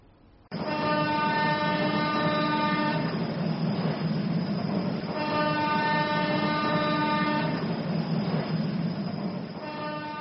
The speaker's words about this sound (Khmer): នៅវេលាម៉ោង9កន្លះព្រឹកសំឡេងតឺតឺតបានបន្លឺឡើងនៅក្នុងស្ថានីយ៍អយស្ម័យយានកម្ពុជាជាសញ្ញាប្រាប់ដំណឹងថាយានជំនិះដល់វែងមួយខ្សែចាប់ផ្ដើមចេញដំណើរ